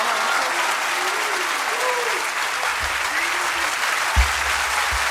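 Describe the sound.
Applause from an audience at a recitation of devotional verse: dense, steady clapping runs loud and unbroken through the whole stretch, with a single low thump near the end.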